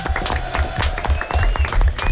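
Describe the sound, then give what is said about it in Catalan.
Applause and crowd noise after a team performance contest at a festive event. Uneven clapping bursts rise and fall, with a brief dip in the middle before it picks up again. “Molt bé, un aplaudiment per tots.”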